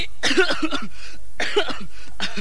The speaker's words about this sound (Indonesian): Hei, kenapa ini? Baris kau pakai batuk-batuk segala.